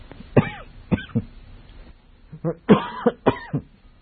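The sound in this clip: A man coughs repeatedly: a cluster of harsh, throaty bursts, a short pause, then another group of coughs. They are fairly loud, with no other voices between them.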